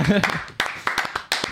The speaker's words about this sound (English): let's clap it before we even see it.